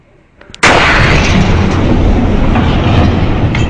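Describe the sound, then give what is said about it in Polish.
The explosion of a meteor bursting about 30 km above the ground bursts in with a sudden, deafening blast, then holds as a dense, roaring rumble without let-up. “Ten tunguski, eksplodując 30 km nad powierzchnią Ziemi, powalił w ułamku sekundy 80 milionów drzew na obszarze ponad 2100 km2. Według wyliczeń musiało to być 221 decybeli.”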